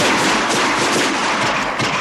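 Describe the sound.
Gunfire comes as a dense, loud barrage of overlapping cracks and booms. It forms a continuous rumble with no clearly separate shots.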